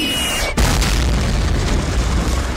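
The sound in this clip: An artillery shell explodes in a First World War trench in northern France: a faint thin high tone gives way to one sudden loud boom, then a heavy, continuous low rumble that holds steady to the end.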